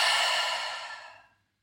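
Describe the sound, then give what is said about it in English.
A long breath out through the mouth during a guided breathing exercise: one soft, airy exhale that starts full and fades to silence over about a second and a half. “let's drop the shoulders, let's breathe in through our nose, out through our mouth, in through our nose, exhale through your mouth.”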